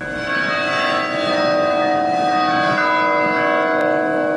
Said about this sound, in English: here's the sound of some of the bells of one of the many, many churches in Odessa, which we heard while we were wandering around.